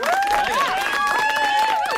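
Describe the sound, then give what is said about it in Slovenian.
An audience applauding to honour a happy moment: loud, dense clapping mixed with pitched, wavering cheering voices. “da ta lep moment počastimo z enim aplauzom”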